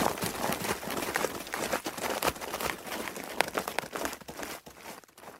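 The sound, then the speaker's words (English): Rapid thudding steps and crunching of undergrowth as a wounded animal runs off after being hit by a musket shot. The noise is dense and continuous, with many overlapping impacts and crackles, and no voices. “Captain Smith is raising his musket. I think he hit it. The animal's running off.”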